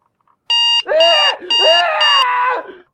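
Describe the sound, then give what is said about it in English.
Smart-speaker alarm beeping: four short, bright electronic beeps in a steady repeating pattern, loud and clear, with a wavering melodic tone running beneath them. “Oh. That's Bobby's alarm.”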